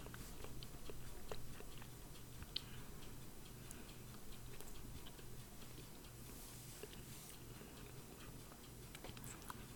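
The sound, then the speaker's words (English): Faint chewing and crunching of cashews, with scattered small crisp clicks and bites over a steady low hum from a fan. “I'm eating cashews. They taste great.”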